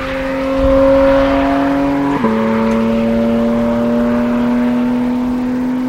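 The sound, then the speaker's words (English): Engine and intake of a Porsche Cayman GT4 RS while driving, heard from the cabin with the intake behind the seats: a loud, steady droning note with a brief dip midway, after which it settles slightly lower. “The driving experience with the sound and the intake right here behind your head. This is peak Cayman.”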